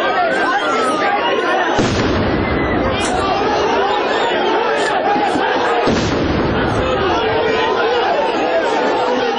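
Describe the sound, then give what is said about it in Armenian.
Tear gas canisters fired by police at protesters: two sharp bursts cut through a loud, continuous clamor of crowd noise and voices. “Ոստիկանները պատասխանեցին արցունքաբեր գազի կրակոցներով եւ սկսեցին առաջ գնալ։”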